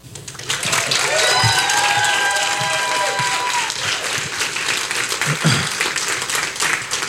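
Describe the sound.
An audience applauds to welcome a speaker at a campus service. The clapping is dense and steady and holds strong through the whole stretch.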